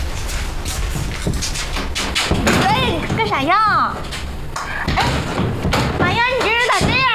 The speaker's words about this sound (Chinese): 别敲了你，不开。